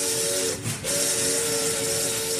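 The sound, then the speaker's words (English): Steam locomotive whistle on a campaign special train pulling out of Washington: a loud, steady, hissing whistle with a brief break partway through, without speech. “Truman got on his train, went whistle-stopping through. A 16-day coast-to-coast tour lies ahead as the Truman Special pulls out of Washington.”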